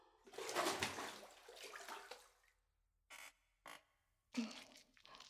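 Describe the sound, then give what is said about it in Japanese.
Water splashing and rubbing as a person's body is washed, starting at the neck, in a soft, close wet wash that runs steadily for a couple of seconds, then breaks into a few short, separate splashy bursts with quiet gaps between them. “じゃあさ、今日も体洗ってあげるね。”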